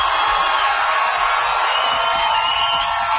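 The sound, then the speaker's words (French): A live concert crowd in Montréal cheering and making noise: loud, continuous roaring applause with whoops and shouts, held at an even, high level throughout with no gaps. “Est-ce que la foule qui est ici avec moi à Montréal est en forme? Si oui, faites du bruit.”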